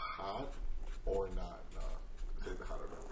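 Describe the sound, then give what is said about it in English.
A Sharpie marker squeaking and scratching as a word is written, a few short, rough strokes heard among voices talking. “You're going to hear the Sharpie right now.”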